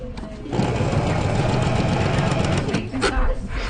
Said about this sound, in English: So to reverse, you're going to push down the reverse button. The machine will move the fabric itself. So all you're doing is just steering left to right.